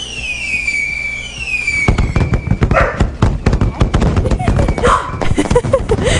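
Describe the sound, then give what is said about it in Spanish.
Fireworks exploding: a high whistling tone slides downward, then many rapid, loud popping and crackling bursts follow in a dense, irregular barrage. “Es que escuchó los fuegos artificiales.”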